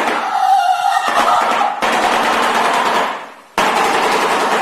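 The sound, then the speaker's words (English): A shoebill stork clatters its beak open and shut in a loud, very rapid, machine-gun-like rattle, sustained in long bursts broken by brief pauses. “There's a bird I had never heard of it called a shoe-billed stork. It's a water bird. Don't know. But it has a characteristic of opening and closing its beak really fast.”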